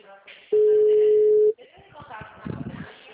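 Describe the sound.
A telephone busy tone after a dropped call on a poor rural line: one steady, loud mid-pitched beep lasting about a second, followed by faint muffled voices and line noise.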